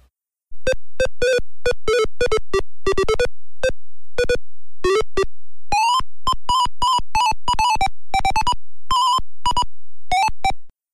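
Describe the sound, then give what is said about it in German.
Video game title music plays through an early PC's built-in speaker as a fast, bright, buzzy run of short beeping notes that jump between pitches in a choppy staccato melody, steady and loud for about ten seconds. “Da haben wir nämlich nur den Speaker-Sound in dieser Ära. Die Titelmusik ist noch erkennbar. Die klingt auf dem PC so.”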